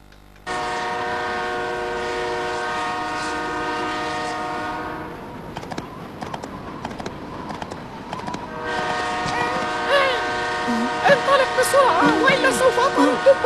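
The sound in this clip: A train being chased by bandits sounds long, droning horn blasts over the rumble and clatter of the rails, with a quieter stretch between the horn calls and voices toward the end.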